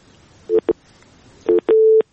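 Telephone line tones after a call is cut off: four steady low beeps in two pairs, the last held noticeably longer, with no talk.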